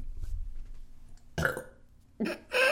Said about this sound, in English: I knew it was coming. I just didn't want to burp in the middle of you talking about Jessica Mendez.